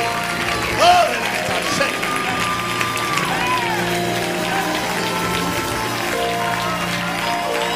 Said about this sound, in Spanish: Oh, dele gloria a Dios, aplauda fuertemente. Grite con júbilo.